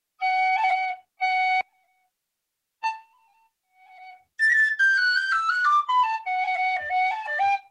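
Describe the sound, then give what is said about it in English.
A tunable tin whistle plays a roll ornament: two sustained notes, a short note and a soft low tone, then a bright, rapid run of ornamented notes that moves quickly between pitches. “So this tin whistle is tunable, which is really fantastic. So let's say an ornament, let's say a roll.”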